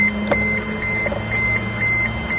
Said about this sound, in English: Listen to the servos. Marvellous feat of engineering. It's almost like music itself.